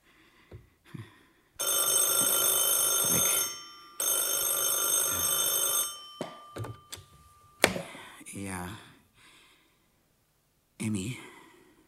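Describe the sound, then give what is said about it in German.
An old-style telephone bell rings for an incoming call: two long, loud, steady rings separated by a short break, with voices speaking briefly before and after. “Von wem kam der Anruf?”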